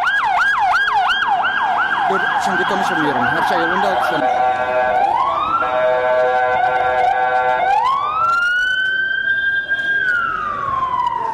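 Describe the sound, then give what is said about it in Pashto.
Ambulance and police car sirens race toward an explosion scene, starting with a rapid warbling yelp and shifting to slower rising wails. The layered tones are loud and unbroken throughout. “سیمې ته امبولانسونه او د پولیسو ګڼ موټر ور روان وو او د پیښې ټپیانو مړي انتقالول.”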